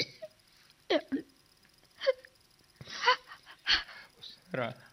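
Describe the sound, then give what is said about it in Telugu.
A woman crying, with several short wailing and whimpering sobs broken by catching breaths, rising and falling in pitch. The crying is quiet and stays alone, with no other sounds. “ఎందుకే ఏడుస్తున్నావు?”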